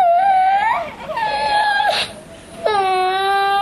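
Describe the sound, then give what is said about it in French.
A young child crying at school, with three drawn-out, wavering high-pitched wails separated by short breaths and sniffles. The crying is loud and fills the whole moment. “si tu continues à pleurer, tu retournes dans la classe.”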